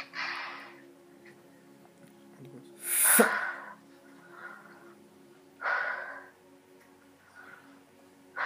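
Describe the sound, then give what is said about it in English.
Deep breaths in and out during a prayer for healing: a few airy, rushing breath sounds spaced several seconds apart, one of them sharp and forceful, with fainter breaths between them. “Just breathe. Just breathe in and out. 5 times.”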